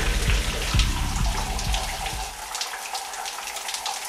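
A shower runs with a steady rushing hiss of falling water that goes on throughout. A few low thuds sound beneath the spray in the first half, and no one speaks.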